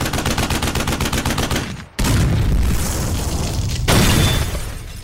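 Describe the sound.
Rapid bursts of automatic gunfire rattle in quick succession, then a grenade explosion sound effect cuts in with a heavy booming blast. A second loud blast follows a couple of seconds later, leaving a dense roaring wash.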